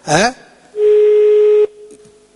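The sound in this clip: A telephone tone sounds while another number is dialed: a brief voice, then a single steady electronic beep held for about a second, cutting off abruptly and leaving a fainter trace of the tone.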